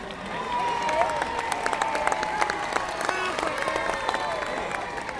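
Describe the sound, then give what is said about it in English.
A theatre audience at a comedy play clapping and cheering, with dense continuous applause and voices calling out above it, holding steady for about five seconds. “The audience is very noisy.”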